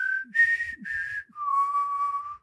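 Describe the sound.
A person whistling a film theme tune: a short melody of clear, sustained notes that steps down to a long, lower final held note, with faint breathy noise and no talking.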